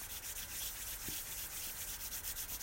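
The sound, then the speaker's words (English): Hands rubbing together make a steady, soft, continuous dry friction that runs unbroken for the whole stretch, fairly faint and without any voices. “And rub your hands together.”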